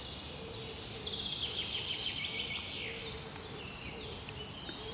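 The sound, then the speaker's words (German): Birds sing in a forest in the morning, near a large puddle just past the edge of the woods. High, thin twitters and trills run faintly and almost without a break over a quiet, hushed background. “Die Vögel sind natürlich alle schon längst aufgewacht.”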